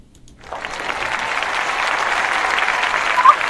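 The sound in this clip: Studio audience applause breaks out after a quiet start and swells into steady, dense clapping that continues to the end.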